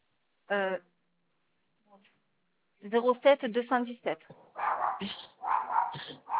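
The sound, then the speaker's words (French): An agitated dog barks: one short, sharp bark, then after a pause a rapid run of yaps and yelps, followed by a person talking. “le chien s'énerve, je sais pas si c'est la vue.”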